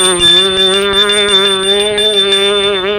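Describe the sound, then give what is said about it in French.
A doorbell rings at a front door. It is a loud, sustained ringing tone with a slight wavering quality, held steadily for the full three seconds with no voices. “On sonne à la porte.”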